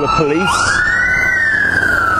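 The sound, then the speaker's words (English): Police motorbike sirens pass in central London near Big Ben, starting with quick wavering wails, then a long, loud tone that rises and holds, sinking slowly, all over a constant background din. “couple of police motorbikes going past there. I wonder what they're looking for.”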